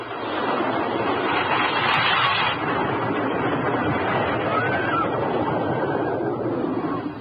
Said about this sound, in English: The sound had changed. I felt the motion before I recognized the new sound. I was dizzy and my head hurt. It was a motor. Yes, it was a motor. I was in a car.